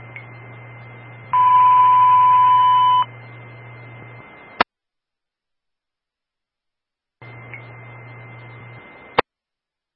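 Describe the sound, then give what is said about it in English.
A Waltham Fire Department box alarm test tone on the radio channel: a steady high tone over a low hum, a louder two-tone burst of about two seconds, then a click and silence before the tone returns and ends with clicks. “Stand by for the box alarm tone, followed by the radio test on channel 1.”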